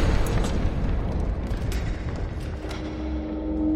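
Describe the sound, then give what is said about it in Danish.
A heavy gate opens in a video game with a deep, continuous rumbling and grinding roar. It holds steady and loud throughout and swells slightly near the end. “Og en port åbner.”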